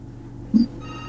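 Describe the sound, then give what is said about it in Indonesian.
A telephone ringing as a caller's line is picked up: a short, steady electronic ring with one brief louder blip midway. “Kita angkat penelpon pertama kita.”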